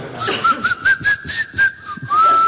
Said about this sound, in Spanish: No le escucho silbar. Sí, ¿eh? Sí, y también sé silbar con los dientes.